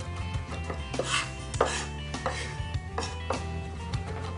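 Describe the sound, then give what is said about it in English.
Knife chopping as garlic is minced on a cutting board, with repeated sharp knocks of the blade striking the board in an uneven rhythm over a low steady hum. “All right, now when cutting garlic, we're gonna mince through, so you wanna smash it with the knife into the board. You're gonna run that knife right through.”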